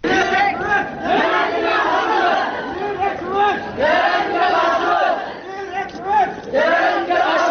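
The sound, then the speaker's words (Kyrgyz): Some 5,000 schoolchildren chant anti-terrorism slogans while marching through central Kara-Suu: loud massed young voices shouting in rhythmic phrases separated by short gaps, repeating throughout. “Ушундай ураан чакырган 5000 окуучу бүгүн Кара Суу шаарынын борбордук бөлүгүн бүт жөө кыдырып чыгышты.”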